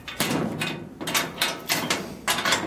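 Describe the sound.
A cabinet is locked, with several sharp clanks and rattles of hardware and a key or bolt, coming in uneven bursts. The noises are fairly loud and nobody speaks.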